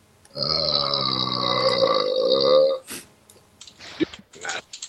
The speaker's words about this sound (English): the waveform for that belch looks awesome